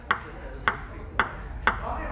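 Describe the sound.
A table tennis ball is struck by one person playing alone on a building's lower floor: five crisp, hollow pings land at an even, unhurried rhythm, each sharp and brief against a quiet background.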